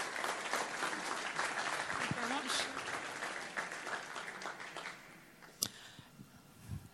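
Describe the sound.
Audience applause welcoming a speaker at a community session, dense steady clapping for about five seconds that then dies away, followed by a few scattered sounds.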